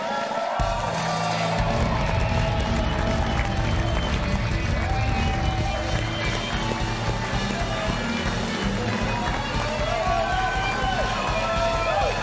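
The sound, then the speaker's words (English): A studio audience at a Packers Live show cheers and applauds to welcome a guest. The crowd noise is loud and continuous, a thick wash of clapping and cheering that holds steady for about twelve seconds. “Ladies and gentlemen, please give a very warm Packers Live welcome to Micah Hyde.”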